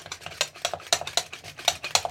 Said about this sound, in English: Trying to scramble some eggs. At the bottom of this bowl, in the middle, it works a lot better than on the sides.